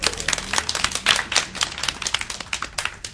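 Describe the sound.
An audience claps at a design business talk event, with many sharp, uneven claps overlapping in a brisk, crackling patter that stays fairly steady throughout.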